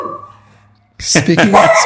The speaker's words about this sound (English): Speaking of dogs. Yes. We have a dog here. That was right on cue.